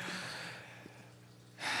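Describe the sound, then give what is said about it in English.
A person takes a deep breath, heard as a faint, breathy hiss that swells sharply louder at the very end. “Oh, you took a deep breath.”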